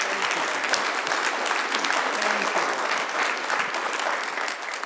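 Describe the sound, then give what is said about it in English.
Applause from a church audience giving a hand clap of praise: dense, continuous hand clapping, loud and sustained at an even level throughout without pause. “I just want to give the Lord a hand clap of praise.”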